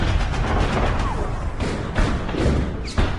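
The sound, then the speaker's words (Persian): Muffled gunfire in wartime combat: a few dull, heavy thuds strike over a loud, constant wash of noise. “شلیک ها شروع می شود.”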